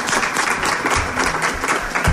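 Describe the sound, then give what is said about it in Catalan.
Audience applause after a poetry reading: dense, steady clapping that stays even and fairly loud for its short length. “Moltíssimes gràcies, Conxita. Molt bonic. Un aplaudiment.”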